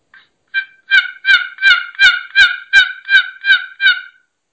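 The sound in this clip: Soft loafing calls of a turkey hen, imitated on a wooden box call: a steady run of about ten raspy, nasal yelps at an even rhythm, each one clear with no talk, in a late-afternoon hunting setting.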